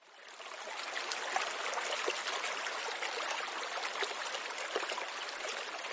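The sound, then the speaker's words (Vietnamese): Water flows in a steady, even rush that fades in over the first second and then holds at a constant moderate level, with faint gurgles here and there and no voices. “Trong bóng tối, cả ba chỉ nghe thấy tiếng nước chảy.”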